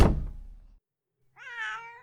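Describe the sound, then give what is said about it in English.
A pet cat meows once, a clear, moderately loud cry that swells and then fades, coming after a dull thump that dies away and a short silence. “That's your cat.”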